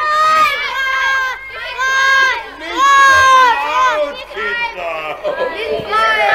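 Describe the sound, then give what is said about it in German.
Cheering from a crowd of children who have just been freed from a dragon: many high-pitched young voices shouting and calling out together, loud and overlapping in excited bursts. “Nachdem alle Kinder befreit waren, gab es natürlich zunächst einmal großen Jubel.”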